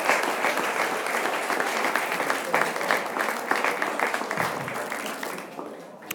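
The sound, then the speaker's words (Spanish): A crowd at a grape-harvest wine festival applauds with loud, dense, continuous clapping that holds steady and eases slightly toward the end. “Vamos a ver, a la salud de todos. Un aplauso para Bertín y para la fiesta de la Verema, ¿eh?”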